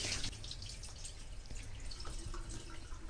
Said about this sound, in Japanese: まず1回目はあまり触らずにお米にひたひたの量のお水を注いでお水を捨てます。